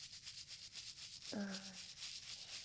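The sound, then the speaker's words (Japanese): Soft, steady brushing strokes as a surface is polished, a faint, even scratchy hiss repeating throughout with a brief low tonal sound in the middle. “次はこの辺りを重点的に磨いて、”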